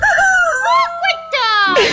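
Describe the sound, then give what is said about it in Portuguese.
A rooster crows at dawn, loud and wavering, in a few drawn-out phrases whose pitch glides up and down. “Zezé Azarado é o galo. Tem filho franguinho, esposa galinha. Como é que é? Dorme no pau e ainda tem que acordar de madrugada cantarolando.”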